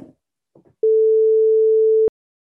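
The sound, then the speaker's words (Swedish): A single steady ringing tone of about a second from an outgoing phone call waiting to be answered. It is clear and even and ends abruptly, after a few faint clipped fragments of sound. “Jennifer Brandt, ska vi se om hon svarar”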